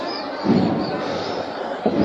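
Procession drums of the Hermandad de la Expiración beat during Holy Week in Jaén as the Santísimo Cristo de la Expiración passes along calle Los Álamos, with a few dull thumping hits rising out of a steady wash of background noise.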